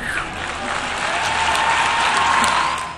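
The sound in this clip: Audience applause after a speech: dense, steady clapping from many hands, holding a constant level before easing off slightly at the end.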